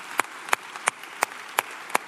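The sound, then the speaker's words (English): A church audience claps together in a steady rhythm at a Sunday morning service: six sharp, evenly spaced claps over a soft wash of background noise. “Come on, put your hands together. Good morning, church.”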